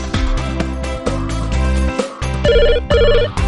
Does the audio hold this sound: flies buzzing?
no